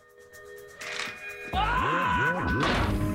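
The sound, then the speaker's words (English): A walking frame thrown against a reinforced glass window strikes with a heavy thud and bounces off, leaving a wobbling, warbling metallic ring that sustains to the end after quieter sounds beforehand. “The glass is reinforced and the frame bounces off.”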